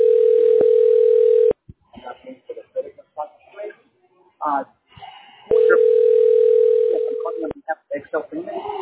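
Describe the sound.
Telephone intercept tone for a number that is not in service: a steady mid-pitched tone holds for about a second and a half, then a voice talks, then the tone returns for about two seconds and fades.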